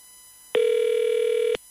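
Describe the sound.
Ringback tone of an outgoing telephone call: a single steady, mid-pitched electronic buzz lasting about a second, with no other sounds.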